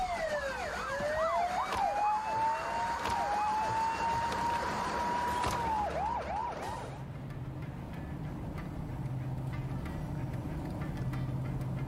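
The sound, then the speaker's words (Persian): A police car siren wails in long smooth sweeps, then switches to a rapid yelping warble before cutting off partway through. A low, steady vehicle rumble carries on afterward. “بابا الکس و اینس اینجان، پلیسا دارن میان، سوار شین.”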